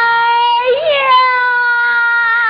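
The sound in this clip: Stylized crying from a performer in a Henan opera (Yuju) scene, a loud, sustained high vocal wail with a brief wavering bend in pitch near the middle, then held steady.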